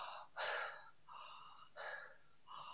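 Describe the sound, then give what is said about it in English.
Rapid, deep breathwork breathing: loud, forceful breaths in a steady cycle, each lasting about half a second with short gaps between them. “the longest I've ever done like a deep breathwork session is about 3.5 hours. Wow. And that is breathing like this”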